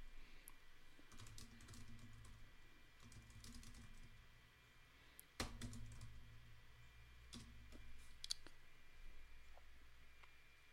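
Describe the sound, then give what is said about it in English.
Faint typing on a computer keyboard while entering a web search: soft, irregular key clicks continue throughout, with one louder tap near the middle. “I'll just type seahorse recipes.”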